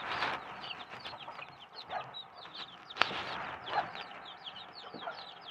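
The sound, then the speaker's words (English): Small chicks peep and cluck in a steady stream of many high, quick cheeps that overlap continuously, with one sharper click near the middle. “Probably my smallest, tiny chicks.”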